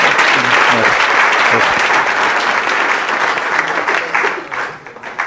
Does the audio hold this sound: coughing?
no